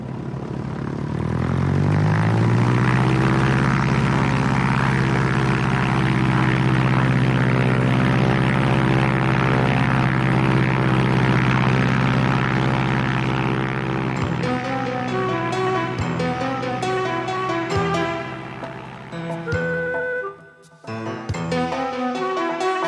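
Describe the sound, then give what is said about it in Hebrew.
A propeller airplane taking off, its engine spinning up with a pitch that climbs over the first seconds into a loud, steady droning roar with a strong low hum. The sound turns more broken and varied toward the end. “הדק אותם בבקשה, אנחנו ממריאים. כן, סוף סוף.”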